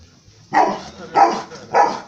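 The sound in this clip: A dog barks three times at an even, unhurried pace. Each bark is loud, short and clear, with quiet gaps between them.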